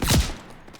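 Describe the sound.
A heavy gunshot-like boom from a shooter video game with snipers. It hits hard at the start and quickly decays into quieter noise, and a small thump follows near the end.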